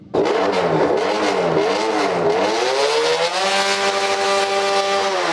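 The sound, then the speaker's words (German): A modified car with its front mask removed revs at full throttle at a village meet during a biker party in Zumiswald. Its loud, continuous engine roar wavers at first, then climbs and holds a steady high pitch. “Zumiswald, Vollgas. Und das gibt er dann auch.”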